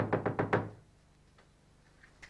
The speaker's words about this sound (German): Der klopft da.